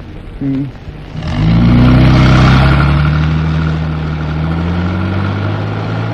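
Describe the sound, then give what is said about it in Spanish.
A car accelerates onto an asphalt road. After a brief quiet moment the engine swells sharply into a loud, low roar, then holds a steady humming drone as the car pulls away. “Greta Gary respira, tranquilizándose al tiempo que el árabe hunde el acelerador, proyectando el vehículo en la cinta asfáltica.”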